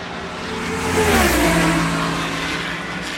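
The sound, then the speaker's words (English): A white minivan drives up Route 77 in Ohio with a steady road roar and engine hum that swells to a peak, then gradually eases, with no voices. “That is the actual sound of me coming home in a driving my brother's white minivan up Route 77 here in Ohio.”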